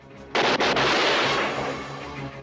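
M16 assault rifle gunfire in a combat scene: a sudden loud burst of a few rapid sharp cracks, then a long, broad rumbling tail that slowly fades, with no voices.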